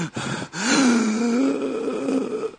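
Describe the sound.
A deep breath before leaning back over a steam inhalation for a head cold. A short intake leads into a long, low, voiced groan that wavers in pitch and holds steady for about two seconds, alone and without words.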